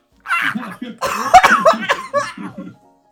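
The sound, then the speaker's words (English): Coughing and sputtering from granola stuck in the throat. A short run of harsh, loud coughs comes with strained, voiced throat sounds and breathy gasps in uneven bursts, then it stops abruptly. “I got granola stuck in my throat!”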